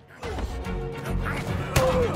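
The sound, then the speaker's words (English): A large rock goalpost crashes down after being struck by a ball, giving one sharp, loud impact near the end over a continuous background of other sounds. “A set of goalposts are now made with large rocks, one of which comes crashing down on another goalie after being struck by the ball.”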